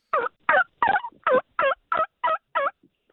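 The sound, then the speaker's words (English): A turkey call is blown to imitate a turkey, producing eight evenly spaced, loud yelping notes in a steady rhythm, then one faint, short note. “That was a turkey call.”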